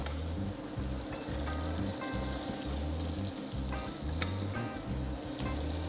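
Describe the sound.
Tataki sears in a large frying pan with a continuous soft sizzle and crackle. The frying hiss stays faint and even throughout, with no talk.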